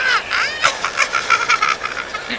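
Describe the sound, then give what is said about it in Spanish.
A green bird calls with a sweeping squawk and then a quick run of short, bright, chirping notes, fairly loud and heard alone. “¡Pero si es un pájaro verde!”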